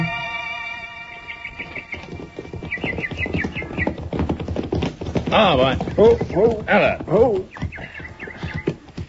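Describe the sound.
Hooves clip-clop as horses are ridden off. Irregular thudding beats run throughout, with voices speaking over them and some tonal whistling sounds.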